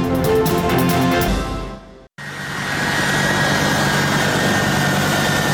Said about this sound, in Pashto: دا د امریکا د هوایی ځواک د هغې پوځي الوتکې غږ دی